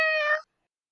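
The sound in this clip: A single short cat meow, clear and tonal at a steady pitch, lasting under half a second before cutting to silence.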